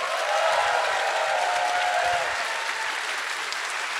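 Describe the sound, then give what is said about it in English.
Loud, steady applause from many hands clapping in a dense, continuous wash that holds for about four seconds, with no voices or gaps. “Clap your hands for a brave child.”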